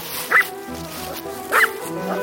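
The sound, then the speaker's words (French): A dog gives two short, high yaps over steady background noise, a second or so apart, followed by a fainter third near the end. “Bon, dis donc, là, le chien... bah, regarde le chien, là.”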